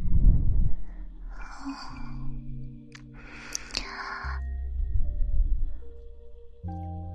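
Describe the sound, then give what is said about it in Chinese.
Breathing in and out during a guided breathing exercise: a few airy breaths and soft exhales over quiet, sustained background music. “呼气，吸气，呼气，”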